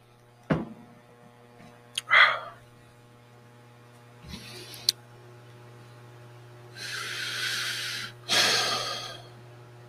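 Coffee sipped during a break: a few soft slurps and breathy exhales separated by quiet pauses, heard over a constant low electrical hum.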